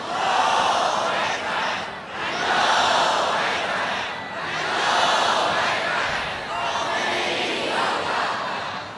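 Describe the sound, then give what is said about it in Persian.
A crowd chants takbir, Allahu Akbar, together at a political gathering in Iran, in loud collective swells that rise and fade as a few repeated phrases, with brief dips between each shout. “یه تکبیر برای خودتون بفرستین.”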